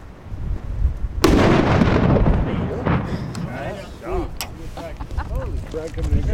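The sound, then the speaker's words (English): A loud explosion set off with a remote detonator, its blast throwing shrapnel past earth berms in high winds: one sudden blast followed by a sustained roaring rumble, with people's voices rising over the fading noise. “He takes my microphone and recorder, and I take his remote detonator. Without further ado, fire in the hole! Fire in the hole! Fire in the hole!”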